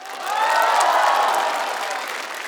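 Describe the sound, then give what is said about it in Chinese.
An audience claps steadily for a horsehead fiddle orchestra from a university art college in Inner Mongolia, at a live concert. The applause is dense and sustained, swelling slightly and then easing, with a faint crowd murmur beneath it. “掌声送给内蒙古大学艺术学院马头琴乐团。”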